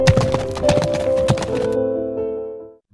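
A horse ridden under a saddle clops along in a run of uneven hoofbeats. The hoofbeats stop partway through, leaving a steady tonal sound that fades out.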